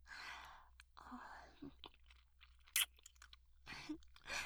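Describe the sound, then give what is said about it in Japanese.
Food is chewed quietly, with a few soft crunching bursts and one brief sharper crunch, alongside faint breathy mouth sounds. “させていただきますね。すごい。いただきます。”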